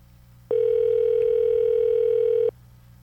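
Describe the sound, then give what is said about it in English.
A single steady telephone ring tone on an outgoing call lasts about two seconds, loud and unbroken against a quiet low hum, with silence before and after. “We're going to cut it quick if it goes to their voicemail. Ooh, a lot of rings here. Apparently, this phone has no voicemail.”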